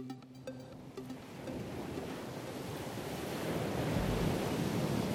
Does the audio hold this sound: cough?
no